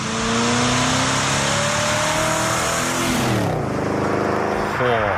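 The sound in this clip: A loud car engine revs hard in a continuous roar, its pitch climbing, then dropping sharply and surging again near the end.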